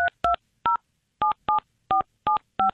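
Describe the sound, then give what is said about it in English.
A touch-tone telephone keypad dials a number, with eight short electronic beeps in an uneven rhythm, clear and alone without talk. “Just dial him.”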